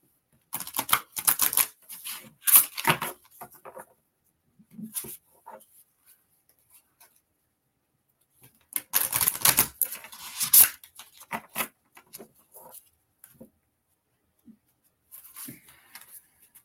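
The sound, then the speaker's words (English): Crisp riffling and flicking of a new deck of oracle cards being shuffled, coming in a few papery bursts separated by pauses, with no talking. “I get to break out my new cards.”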